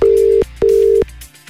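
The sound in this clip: Telephone ringing tone during a call: two steady, loud, single-pitched tones of equal length with a short gap between them, and no voices.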